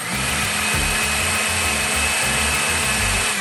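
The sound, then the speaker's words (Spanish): A blender whirs at full speed as it blends grated coconut with hot water, giving a steady, loud motor whine with a low, churning pulse beneath it. The sound runs unbroken for the whole stretch. “Colocamos el coco rallado en la licuadora junto con el agua caliente y licuamos durante 2 a 3 minutos hasta obtener una mezcla bien blanca y espesa.”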